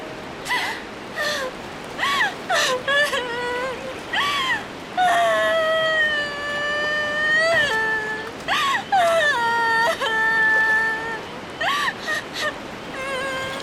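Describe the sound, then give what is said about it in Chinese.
A young person crying and sobbing: high, wavering wails that bend up and down in pitch, broken by short catching sobs, loud and continuous. “清水，你别再哭了。”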